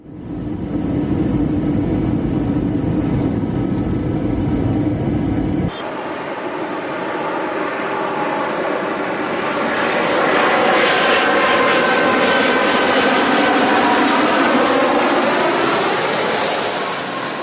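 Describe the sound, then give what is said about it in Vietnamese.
Continuous roar of an airplane on a flight from the United States arriving at Tan Son Nhat airport in Saigon. The dense, rumbling noise shifts abruptly early on, then swells with rising whining engine tones. “Chuyến bay từ Mỹ chở Ngài về đến phi trường Tân Sơn Nhất, Sài Gòn”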